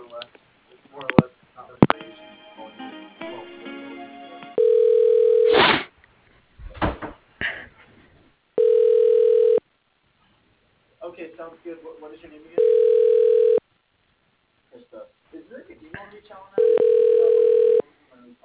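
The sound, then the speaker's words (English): Ringback tones sound while a phone call is transferred through to a manager's line: four evenly spaced buzzing rings, with voices and other sounds in the gaps between them. “Just a moment. I'll transfer you through.”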